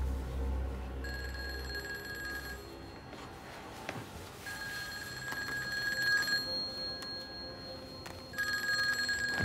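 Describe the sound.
A telephone rings faintly in three electronic bursts, the last one cut off, with pauses between them over a low steady background hum.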